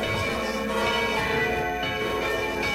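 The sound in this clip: Bell tones ring through a radio station jingle, a dense, sustained ringing that holds steady at a fairly loud level for about three seconds.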